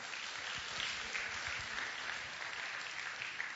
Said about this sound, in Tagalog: Okay, palakpakan natin ang Panginoon.